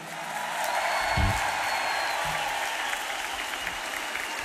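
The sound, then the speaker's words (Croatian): Concert audience applause: a broad, sustained sheet of many hands clapping that stays even and fairly loud across several seconds, with a few low thumps inside it. “Jedan veliki aplauz za srednju generaciju.”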